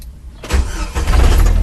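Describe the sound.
A 1999 Jeep TJ engine starts with the key after its ignition cylinder is reinstalled: a sudden crank burst, then a loud, steady, low rumble as it runs.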